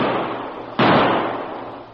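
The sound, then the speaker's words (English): A single blast from a sawed-off shotgun fired into a gravel bank, a sudden sharp burst rising out of a steady hiss and then decaying gradually. “Each carried a sawed-off shotgun. As one pointed to a soft spot in the bank, the other aimed his weapon at it and fired.”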